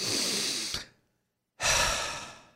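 Two long, deep breaths, each a soft, airy rush of breath separated by a short silence, heard alone at a moderate level with no voices.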